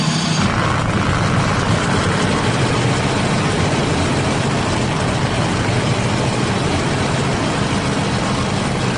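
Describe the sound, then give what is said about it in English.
A summertime airplane's engine runs as it taxis before a test flight in winter conditions, a loud, steady droning roar that holds unbroken for nine seconds with no talk. “We're flying a summertime airplane in winter conditions. The crew needs this test flight to put any fears to rest. I'll just taxi it back here, and if everything's good, we'll blast off.”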